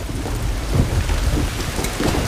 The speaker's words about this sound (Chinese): 雨下大了，再把伞。 哎，对对对，小彤，雨下这么大，拿把伞吧。